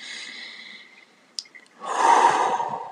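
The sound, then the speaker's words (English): A deep breath taken as part of a relaxation exercise: a long, airy rush of inhaled air lasting about a second, rising out of a quiet stretch that holds faint steady tones and a soft click. “Or as I tell my clients in Floga, you take a deep breath.”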